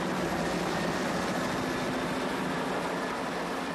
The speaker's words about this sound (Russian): Заложив в вираж, вертолет делает круг над полем.